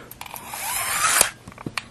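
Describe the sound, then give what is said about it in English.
A steel tape measure blade retracts fully into its case: a rising rasping whir for about a second that ends in a sharp snap, followed by a few faint clicks. “I let the tape go all the way back in.”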